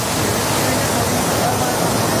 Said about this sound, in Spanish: se han abierto las compuertas de ese embalse para liberar agua.